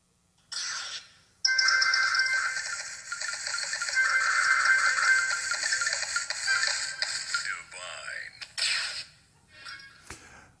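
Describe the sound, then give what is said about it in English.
A bright, chiming jingle from a mobile match-three puzzle video game: a short tonal burst, then a long sustained melodic passage, then a few shorter bursts before it fades out. “I don't know if you know, but that was Candy Crush.”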